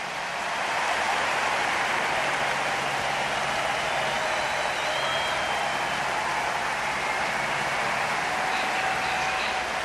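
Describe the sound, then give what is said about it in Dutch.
Enthusiastic applause from a large audience after a speech at an Olympic event, a dense, even wash of clapping and crowd noise that stays steady and loud for the whole stretch. “En hij sluit af met een geestdriftige publiek als reactie.”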